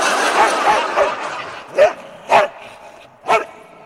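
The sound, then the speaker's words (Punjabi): A dog barks: a few soft yips come first, followed by three louder, sharper barks spaced apart. “Wow कितना प्यारा doggy है। मैनू क्या है जी कुछ मतलब? ये आपके पास खड़ा है ना डॉगी कितना प्यारा है।”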